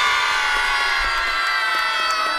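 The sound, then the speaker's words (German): A crowd of schoolchildren cheers loudly and continuously at a prize announcement, a dense wash of shouts and whoops that stays at full level for about two seconds with no pause. “Also, vielleicht nochmal ganz fleißig jubeln.”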